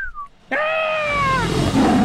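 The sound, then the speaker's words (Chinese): A tiger roars beside a restaurant that sits next to a tiger park in Luoyang, Henan. A faint higher cry comes first, then one loud, rich roar whose pitch slides slowly downward before breaking into a rough, noisy rumble. “怎么有只老虎啊？”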